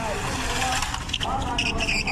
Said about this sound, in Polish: Ruch, korki. Kierowcy zdają się łamać nie tylko przepisy drogowe, ale i zasady fizyki.